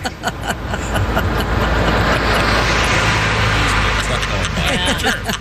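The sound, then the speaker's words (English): Road noise from Ringo Starr's car as he drives to a rehearsal for his All-Starr Band tour with the window down: a steady, broad rush of wind and tyres, with voices talking over it throughout. “In as Ringo drives to a rehearsal for his all-star band tour.”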